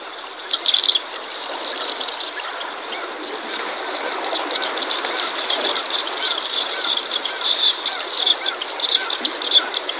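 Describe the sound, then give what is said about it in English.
Chirping of an ancient murrelet, a small, plump water bird. Many short, high chirps repeat steadily over a continuous rushing background noise. “Well, that was the chirping, I guess is how one might say it, of the ancient murrelet.”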